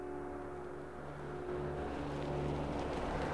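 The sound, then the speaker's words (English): Two black cars drive off-road in a dry, dusty landscape. Their engines make a low, steady drone with a constant hum that grows a little louder toward the end. “In a dry and dusty landscape, two black cars are driving off-road.”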